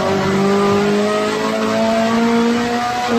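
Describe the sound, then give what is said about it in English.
A race car engine pulls hard in third gear up to about 8,000 rpm on a track. A loud, continuous harmonic drone climbs slowly in pitch, with no talk over it. “Pretty much just rode it up to 8 grand in third gear there.”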